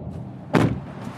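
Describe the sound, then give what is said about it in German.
A car door slams shut as people get into a car at a motorway rest stop: one short, dull thud rising briefly over a steady low background hum, with no voices. “Um uns ein bisschen aufzuwärmen, steigen wir in mein Auto und fahren zur Raststätte auf der anderen Autobahnseite.”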